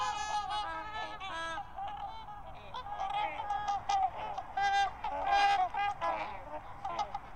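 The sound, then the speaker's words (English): A flock of over 100 trumpeter swans calling: many overlapping, brassy, trumpet-like honks of varying pitch that rise and fall in a steady, dense chorus. “However, the refrain was rising not from messengers or musicians, but from a flock of over 100 of some of North America's most majestic and impressive birds, trumpeter swans.”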